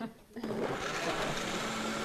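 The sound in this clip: Blender starting up to blend beets with the lid on: a faint hum, then a sudden loud whirring roar at about half a second, settling into a steady motor drone that runs to the end.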